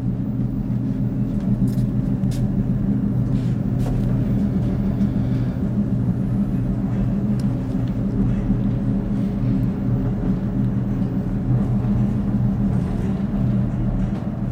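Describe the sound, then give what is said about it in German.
A theatre stage podium lift travels down into the understage, giving off a steady low mechanical rumble and hum throughout, with a few faint clicks on top. “So, wir fahren jetzt in die Unterbühne.”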